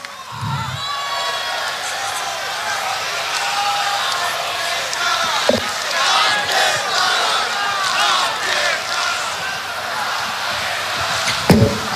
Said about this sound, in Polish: Nagrodźcie ekipę brawami.